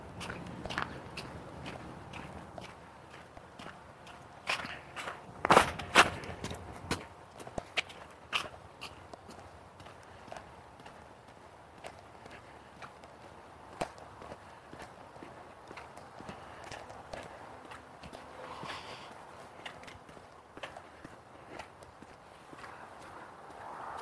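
Footsteps walk past a house: a long run of many crisp steps on a hard surface keeps an even walking rhythm, mostly faint, with a few louder knocks near the start.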